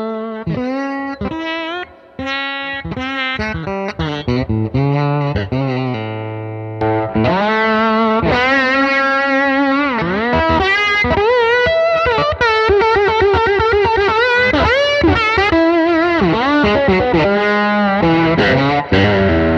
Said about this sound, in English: It sounds great, you know. I really like the brass. Totally different sound. It is, and I use the brass a lot on acoustic, and then glass for electric.